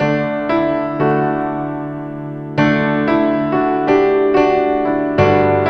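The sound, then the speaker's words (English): A simple chord progression is plunked out on a basic instrument, a piano or guitar. Several chords are struck one after another, each ringing and slowly decaying, with a longer held chord midway before quicker changes resume. “how most people will write is just with a basic instrument. So they'll either have a piano or a guitar, and that's how most of us have written. And you just kind of sit down and you start plunking out a chord progression until something sounds good. So, you know, that would just sound something like this.”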